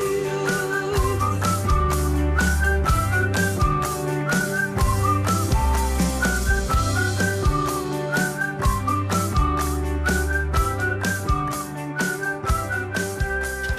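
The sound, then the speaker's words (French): A man whistles a bright melody at the end of a pop song, over steady drums, bass and band accompaniment that stay loud throughout. “il sifflote, il est de bonne humeur, comme vous j'espère”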